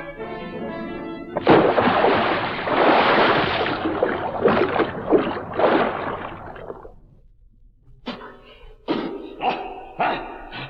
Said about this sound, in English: I'm diving off this pier, and when I do, you'll never catch me.